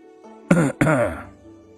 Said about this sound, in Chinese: 却听到身后一声咳嗽声传来，惊得两人猛地一回头